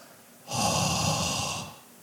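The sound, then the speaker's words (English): A man exhales a single long, breathy puff of air in imitation of Jesus breathing on the disciples, rising suddenly out of quiet, holding for about a second and fading away. “He breathes on them and he says, I want you to be filled with the Holy Spirit.”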